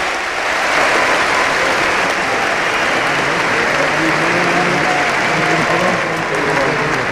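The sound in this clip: Audience gives loud applause for an athlete, a thick and even sustained clapping that holds at full level from start to finish, with faint voices mixed underneath.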